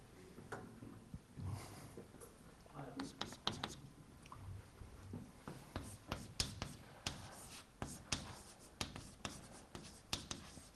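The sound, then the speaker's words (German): Pen-like writing strokes during a lecture on computer architecture: many short, scratchy strokes in irregular bursts, quiet throughout. “ich schreibe mal hier weiter”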